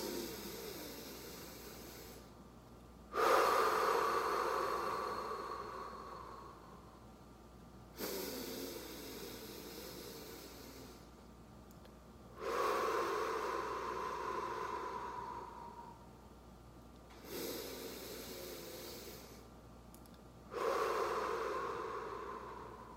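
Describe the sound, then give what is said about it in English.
Deep, slow breaths drawn in through the nose during a guided calming exercise: several long, airy inhales, evenly spaced and quiet, with no talking. “let's just be the light, be the love for three breaths. In through the nose.”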